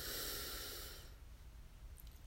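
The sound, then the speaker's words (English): A deep breath: one long, airy inhalation that is loud for about a second, then dies away into faint breathing. “So let's breathe in and out. Breathe in”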